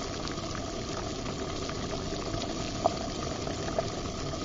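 Water boiling in a pot in a kids' kitchen cooking game where sausages and platypus are boiled: a steady, dense bubbling hiss with two slightly louder pops near the end.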